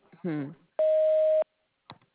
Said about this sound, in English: If you'll leave your name and number after the beep, we'll be glad to answer your very important call.